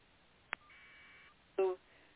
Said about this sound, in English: the phone's ringing, I'm sorry